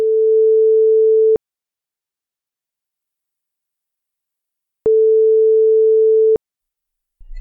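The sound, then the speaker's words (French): Telephone ringback tone while calling a shoe shop: two long, steady, mid-pitched tones, each about one and a half seconds, separated by several seconds of silence. “Ouais, on appelle à la boutique. Ouais, ça marche. Oui. Allez, ça marche, on appelle.”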